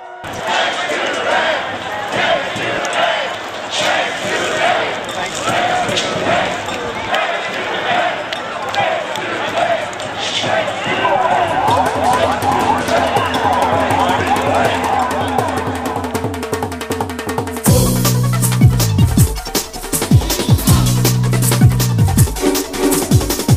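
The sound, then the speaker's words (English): Pennies thrown at a big steel pyramid during a penny throw, many scattered sharp impacts amid crowd noise and talk. Later, a crowd chants in rhythmic bursts. “Now the pennies are being thrown at this big steel pyramid. That's right. This is where we did the penny throw. Everybody starts chanting, back to the bank.”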